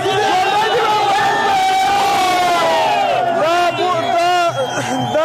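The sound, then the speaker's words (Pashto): A crowd of youths and children chants celebratory slogans in front of the cricket board in Kabul at night, cheering a historic cricket win over Pakistan; loud, continuous massed shouting voices with rhythmic chanting throughout. “په پلازمینه کابل کې د کرکټ بورډ مخ ته تیر شپه یو شمیر ځوانان او ماشومان راټول شوي او د پاکستان پر وړاندې د کرکټ د تاریخي بری په خوشحالۍ کې ژوندې دی افغانستان شعارونه ورکوي.”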